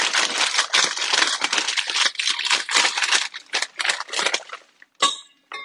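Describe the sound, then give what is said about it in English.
Crinkling of an empty pretzel bag being folded up: many dense, crackly rustles over about five seconds, thinning out before a brief pause and a final short burst of crinkles. “Fold up this bag. Put him out of the way.”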